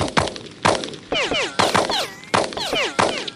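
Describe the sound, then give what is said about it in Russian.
Gunfire rings out as police shoot at a steel rocket in a children's story. Several sharp cracks follow one another, each trailed by a falling, whistling whine of a passing bullet. “Послышались выстрелы. Вокруг засвистали пули.”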